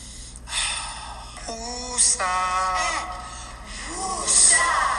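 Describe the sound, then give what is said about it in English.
A person takes deep breaths: noisy, breathy inhales with sharp gasps, alternating with voiced, wavering sighs on the exhale that sound almost bleat-like. “Okay, let's take a deep breath together.”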